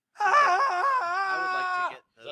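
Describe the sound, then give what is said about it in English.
A voice performs one drawn-out wailing scream lasting nearly two seconds, steady and tonal with a wavering pitch before it cuts off, followed by a brief trailing sound. “There's a scream from the far side of the ship where the sea and ocean would be.”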